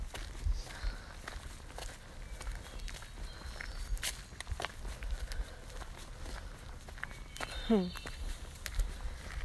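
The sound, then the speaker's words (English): Footsteps crunch along a woodland hiking trail in an irregular run of soft steps, and a short high sweeping chirp breaks in near the end. “It's a beautiful day. I'm walking through the woods.”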